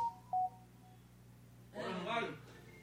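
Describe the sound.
Telephone keypad tones as a call is placed on a radio phone-in: two short electronic beeps, then after a pause a voice talks.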